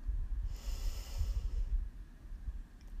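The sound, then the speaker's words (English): A deep breath in and out during a guided relaxation exercise: one long, soft, airy rush of breath lasting about a second, over a low steady rumble, with no talking. “Breathe in. And out. Breathe in”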